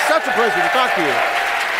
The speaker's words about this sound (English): Now, the strange noises you hear in the background are what we used to call laughter and applause.